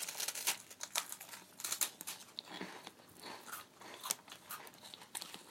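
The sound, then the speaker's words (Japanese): Crisp cookies are being eaten: many irregular crunches and chewing sounds, bite after bite, with short crackling bursts. The sound is faint and continuous, and no one speaks. “クッキー やを食べます。いただきます。 いただきます。”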